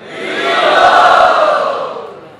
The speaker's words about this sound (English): And all the devotees cheered with joy. Hari Bol.